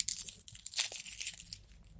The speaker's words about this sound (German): ich habe heute halt noch nichts gegessen, deswegen fresse ich gerade Schokomaus.